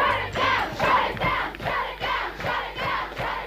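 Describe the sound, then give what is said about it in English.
A large crowd of about 7,000 women chants at a 1992 International Women's Day protest march in Melbourne, demanding the closure of an adult cinema. Loud, rhythmic shouts repeat in steady pulses. “That's the sound of 7,000 women demanding the closure of the Shaft Adult Cinema in Melbourne.”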